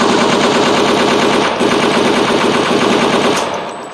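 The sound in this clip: Loud, sustained automatic gunfire rattles in a rapid, unbroken stream after a reload, staying dense throughout before easing slightly at the end.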